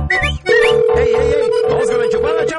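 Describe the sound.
A telephone rings as a single steady electronic tone, held for about two seconds after a short opening stretch. Busy overlapping voices run beneath it.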